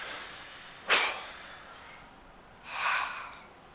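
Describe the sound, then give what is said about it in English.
A deep breath drawn in and then blown out during a calm centering exercise: two soft, airy rushes of breath, the first sharper and the second broader, with quiet stillness between them. “I ask you to center yourself, if you will. Take a breath in and blow it out.”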